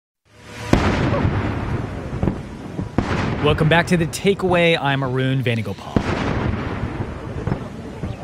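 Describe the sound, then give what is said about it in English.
Cannon fire of a 21-gun salute greeting a president arriving in India: a few heavy booms spaced seconds apart with rumbling between them, while a man speaks over the middle stretch. “That's the sound of the 21-gun salute greeting President Trump as he arrived in India this week.”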